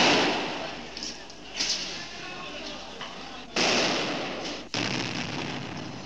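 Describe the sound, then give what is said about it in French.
Offensive grenade thrown by a protester during street fighting in Algeria, heard as a few abrupt, sharp bangs cutting through a continuous rough, noisy din. “Un manifestant vient de lancer juste en dessous de moi, je l'ai vu à 10 mètres à peine, une grenade offensive.”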